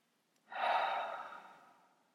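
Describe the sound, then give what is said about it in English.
A person taking one deep breath: a soft, airy rush that swells quickly, then fades gradually over about a second and a half, alone and without talking. “So take a deep breath.”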